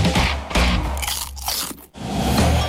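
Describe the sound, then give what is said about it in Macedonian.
Crisp crunching of air-popped, unfried potato chips being bitten and chewed, a steady run of many loud, dry crackling bites with no talk, dipping briefly near the end before the crunching resumes. “Вистинскиот вкус и кранч на чипс, добиен без пражење и изгрицкан без грижа на совест.”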